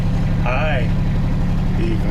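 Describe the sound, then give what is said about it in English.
Engine of a two-wheel-drive side-by-side off-road vehicle running in the woods: a steady low rumbling drone throughout, with a brief voice over it early on. “quite proud of the capabilities of his side-by-side. That was a two-wheel drive.”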